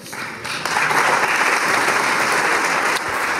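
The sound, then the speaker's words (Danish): Applause fills the Hungarian parliament after a vote to roll back anti-LGBTQ+ legislation. It is steady, dense clapping that jumps louder early on and stays sustained to the end. “Ja, det her, det er lyd fra det ungarske parlament i dag, hvor man har stemt for at rulle anti-LGBTQ+-lovgivningen tilbage.”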